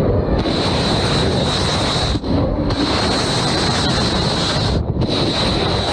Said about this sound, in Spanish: Son lanzamientos de misiles del ejército estadounidense contra Irán, tal y como prometió hacer Donald Trump.